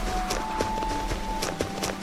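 Footsteps of a character walking in a video game: a steady series of soft, evenly spaced steps over a faint constant tone, with no voices.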